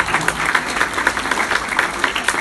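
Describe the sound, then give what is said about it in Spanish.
Audience applause at a church gathering: a crowd claps together in a steady, rhythmic pulse of sharp beats, loud throughout with no voices standing out. “Dale un aplauso al Espíritu Santo.”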